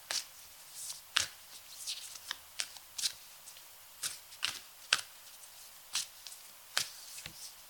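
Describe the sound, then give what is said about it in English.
Oracle cards being shuffled and drawn give many crisp slaps and flicks in an uneven rhythm, fairly quiet, with no voices. “Okay. Oh, interesting. So this last card is wait. And it says, it's not yet time.”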